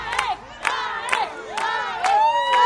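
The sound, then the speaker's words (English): Kindergarten children from a Jerusalem YMCA cheer a marathon runner at the halfway point, their high, excited shouts and whoops rising in repeated bursts from a small crowd, growing louder toward the end. “Kindergarteners from the Jerusalem YMCA, who helped Gergis design his flag, cheered him on at the halfway point”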